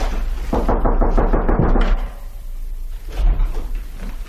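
Knocking on a door: a quick, even run of sharp raps lasting about a second and a half, followed by quieter, duller sounds.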